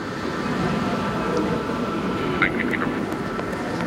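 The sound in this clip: A train pulls into a station with a steady, broad rumble, and a few brief high squeaks cut through it midway.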